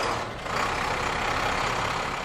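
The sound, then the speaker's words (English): A Type 3 four-wheel-drive fire engine gives a steady, heavy engine rumble with a brief dip near the start, then a continuous drone. “we're looking at one of our newest fire apparatus. That's a Type 3 engine. It's got four-wheel drive.”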